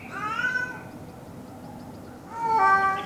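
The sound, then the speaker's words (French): The neighbour's cat, in heat, meows in a street in Douai: two drawn-out, wailing meows separated by a pause, over a faint background hiss. “Un bruit étrange se fait entendre dans une rue à Douai. En cherchant un peu, je me suis rendu compte qu'en fait, c'est le chat du voisin en chaleur.”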